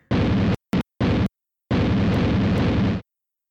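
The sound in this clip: A ship explodes in three short, loud bursts of blast noise followed by one long, roaring rumble that cuts off abruptly.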